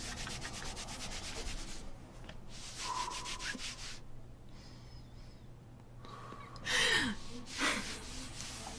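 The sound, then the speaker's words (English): A rag is wiped over a spill in several bouts of quiet, rasping rubbing strokes, separated by short pauses, with audible gasping breaths between them. “Please give me the rag. I'm wiping it up.”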